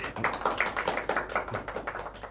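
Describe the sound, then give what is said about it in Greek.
Scattered applause in a radio drama: quick, irregular claps that are fairly faint and sparse, with no voices over them. “Εμάς χειροκροτούν? Όχι, αυτόν.”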